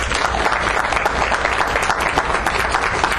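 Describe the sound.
Audience applause welcoming a speaker to an evening talk on Kentucky farming, a steady, dense wash of clapping that holds level throughout with no voices over it.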